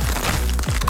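Crunch-brand tortilla chips being bitten and chewed, a dense, loud crackling crunch that continues steadily throughout with no talk.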